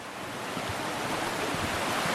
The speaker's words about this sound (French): En hiver, bien sûr, l'eau monte beaucoup plus haut. Et le bruissement est peut-être un peu moins agréable aux oreilles. On est plus dans un grondement que dans un charmant bruissement comme ce qu'on est en train de voir.